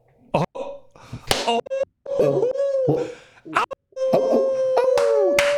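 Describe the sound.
A person imitates a wolf howl with long, sustained tones that rise at the end, broken up by short bursts of excited talk.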